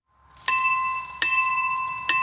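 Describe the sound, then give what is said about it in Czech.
Bell ringing in an old village belfry standing since 1968, three loud strikes, each followed by a bright, sustained metallic tone that rings on between them, with no voices. “Tohle je vlastně stará zvonička, která tady je od roku 68”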